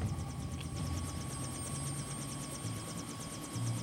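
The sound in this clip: A helicopter on a riverbank gives a steady rhythmic rotor chop over a continuous engine drone, moderately quiet and unchanging throughout, with no talk.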